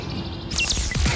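A house sparrow, an Asturian bird, calls in a brief burst of quick, high, sweeping chirps that cut in over a low, steady hum.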